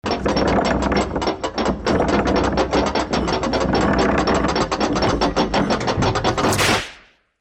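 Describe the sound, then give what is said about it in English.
A prize wheel spins with a rapid, steady stream of loud ratchet-like clicks that run nearly the whole time, then fade quickly to silence as the wheel stops. “Spin the wheel of pain.”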